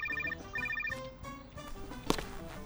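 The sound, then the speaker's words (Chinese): A telephone ringing: a bright, repeating electronic ring pattern in two quick bursts, followed by quieter tones and a sharp click near the end. “你先接电话吧。”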